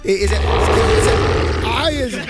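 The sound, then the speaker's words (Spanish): A voice imitates a tiger's roar with one sustained, rough, loud growl lasting about two seconds. It holds steady through most of its length, then ends in a short, wavering vocal inflection. “Ahí viene el tigre.”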